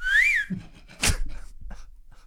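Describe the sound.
A person whistles one short tone that rises and then falls, followed by a dull thump and some faint clattering.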